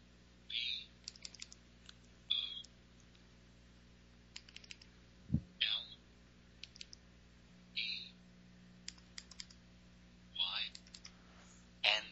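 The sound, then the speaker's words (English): Phone keypad keys pressed to type a name using multi-tap text entry: many faint, crisp clicks in irregular clusters, some in quick succession, with short quiet gaps between groups. “just going to use the multi-tap text entry method to type in her name. And space is 0 once. And now I'm going to type Boleyn.”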